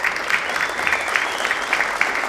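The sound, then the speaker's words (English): A studio audience applauds with steady, dense clapping that stays at an even, lively level for the whole moment. “We also thank the members of our great studio audience tonight for being with us, for supporting the mission of Red Barn Radio. Yes, give yourselves a hand.”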